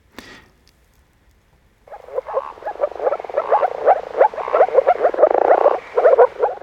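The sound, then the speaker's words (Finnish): Moor frogs croaking in a dense chorus of soft, bubbling, low calls. The chorus starts after a brief silence and continues steadily, swelling and ebbing in loudness. “Viikon luontoääni Viita Sammakko saattelee Politiikka-radion piiriin.”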